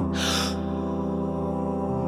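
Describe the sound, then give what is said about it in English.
A quick, deep breath drawn in during a breathing exercise: one breathy rush of air lasting under half a second, heard over a steady tonal drone that continues throughout. “I close my eyes, try to clear my mind as much as I can. I inhale deeply,”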